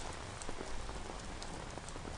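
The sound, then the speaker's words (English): Steady rain falling, a dense, even hiss with scattered pattering drops throughout and no voices. “It's like the weather. It's like this damn rain.”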